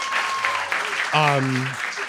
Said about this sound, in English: First of all, clap for Gertie.